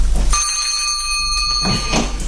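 A bell rings to summon a servant: one sustained ringing tone with bright overtones that holds steady for over a second and a half, then cuts off.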